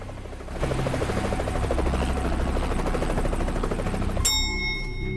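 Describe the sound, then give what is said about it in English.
Helicopter flying overhead, a loud, steady rhythmic rotor thudding over an engine drone that holds throughout, with a bright bell-like ding ringing out near the end. “A helicopter buzzes overhead.”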